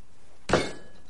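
A wine glass is set down on a table after a toast: one sharp clink of glass on the tabletop, followed by a short, fading ring.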